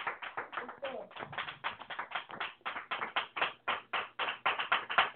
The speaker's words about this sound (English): Let's give the Lord a hand clap and praise.